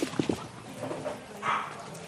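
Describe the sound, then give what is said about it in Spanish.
Dogs whimper and yip as they are let out: a few short, high yips come close together at the start, then only quieter background noise remains. “Pues ya salen los perros.”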